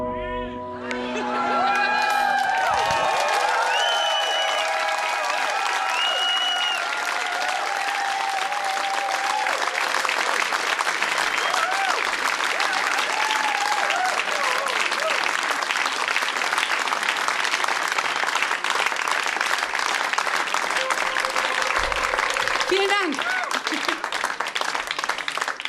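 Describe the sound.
An audience applauds and cheers after a flic-flac and a double somersault in a live choreography, with dense, sustained clapping and scattered whoops lasting the whole stretch at an even, loud level.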